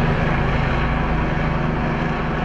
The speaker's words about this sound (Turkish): Helikopter ve drone'la da havadan destek verildi.